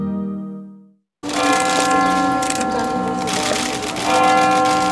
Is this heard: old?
no